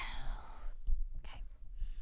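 Breath blown toward a microphone, a long rushing puff of air at the start, followed by a few softer puffs and low thumps.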